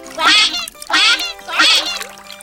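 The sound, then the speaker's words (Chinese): A rubber duck squeaks at bath time, three bright, even squeaks in a steady rhythm, each loud and lasting about a third of a second, with short gaps between them. “可爱的橡皮小鸭子”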